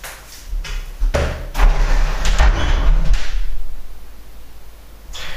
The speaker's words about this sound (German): So, jetzt habe ich auch das Fenster aufgemacht einfach um ein bisschen Luft reinzulassen.